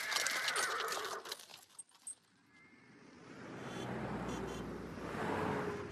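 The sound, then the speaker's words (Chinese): A horse pulling a cart whinnies in a few bursts at the start, followed by a steady, low rolling rumble as the horse cart moves along. The whole is fairly faint and there is no talking. “进城以后，刘老汉把马车赶进了马车店。”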